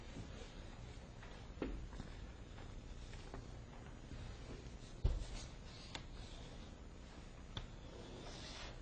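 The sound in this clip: Faint scratchy strokes of a lecturer drawing energy contours on a board, soft rubbing marks broken by a few sharper taps, with no talk over them.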